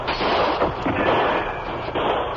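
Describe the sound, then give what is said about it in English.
Gunshots ring out from all sides of a shack in a dense, continuous barrage, sharp cracks overlapping into a loud, unbroken roar of fire with no pause. “Shots come from every side of the building.”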